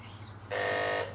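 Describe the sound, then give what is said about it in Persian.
A doorbell buzzer rings once at a house door, a harsh, steady electric buzz lasting about half a second over a low constant hum. “صد دفعه گفتم زنگ نزن”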